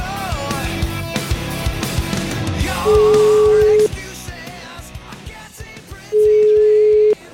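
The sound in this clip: A telephone call rings out on the line. Two long, steady mid-pitched tones, each lasting about a second and separated by a few seconds of quieter music and background sound, sound clearly above the rest.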